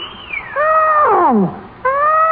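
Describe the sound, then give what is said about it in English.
Elephants trumpeting in a herd, as a sound effect: a few loud, harmonic calls, one sliding steeply downward in pitch, then a fresh call after a short pause. “I vote for a whole herd of elephants.”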